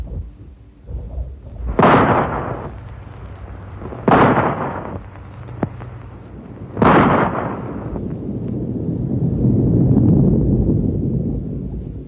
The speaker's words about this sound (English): Rifle shot? Right. Now watch.